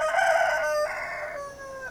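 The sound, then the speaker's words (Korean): An old rooster perched on a tall post beside a village entrance crows in a drawn-out, harmonic cry that holds a high pitch and steps down partway through, moderately quiet and without voices. “늙은 수탉 구스텔 하늘만이 보였어요. 서글피 울고 있었어요.”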